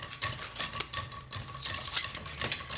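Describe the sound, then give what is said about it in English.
A spoon stirs a drink mixture, giving faint, quick clinks and scrapes that repeat in a steady, busy rhythm, with no voices. “And then we stir this.”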